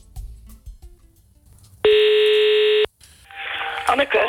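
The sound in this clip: A single steady telephone tone sounds for about a second as a call is placed, standing out sharply between stretches of quieter, noisier background.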